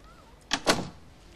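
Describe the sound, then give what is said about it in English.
A door swinging shut with two quick thuds close together, the second fuller and longer-ringing than the first, heard alone with no talk. “Close the door.”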